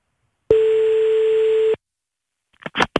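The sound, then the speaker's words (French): One long, steady ringback tone sounds on a telephone call, an even electronic hum lasting just over a second, followed after a pause by a few sharp clicks on the line. “On appelle Nico. C'est parti.”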